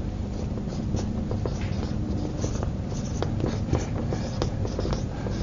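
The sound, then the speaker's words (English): Handwriting of a single word: many short scratching strokes in an uneven rhythm over a constant background hiss, fairly quiet, with no talking. “All right, over here lampstand. Let me write here.”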